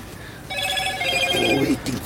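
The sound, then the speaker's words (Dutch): A phone rings inside a truck cab, giving a bright warbling ring over a steady rumbling background. “De chauffeur wordt gebeld”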